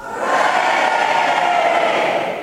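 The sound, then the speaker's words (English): Adult church audience shouting "hooray" together on a count of three: one loud, sustained crowd shout that swells quickly, holds for about two seconds, then fades slightly at the end. “Let's see if they can shout out hooray on the count of three. 1, 2, 3.”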